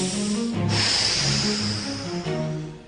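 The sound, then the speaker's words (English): An inhale followed by a long exhale through the mouth during a neck-stretching exercise routine: a short airy intake gives way to a steady, breathy rush of air lasting a couple of seconds. “And inhale, exhale through the mouth”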